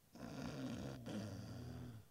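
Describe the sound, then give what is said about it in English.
Snoring from a sleeper in deep REM sleep: two long, low, rattling breaths run back to back, quiet and alone. “is currently in snore mode. He is in a very deep REM sleep at this time.”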